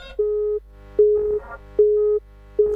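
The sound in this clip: A telephone line cutting out during a call gives four regular beeps of a steady mid-pitched tone, each about half a second long and evenly spaced with short silences between them.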